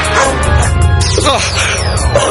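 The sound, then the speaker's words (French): A monstrous dog barks and yips in a dense, loud, continuous run, with whining, whimpering tones mixed among the barks. “Ramène ce chien, ce monstre, d'où il vient?”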